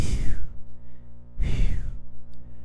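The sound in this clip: A voice imitates a man's whistling nasal breathing: two loud, airy breaths, each carrying a thin whistle-like tone that slides downward in pitch, with a short gap between them.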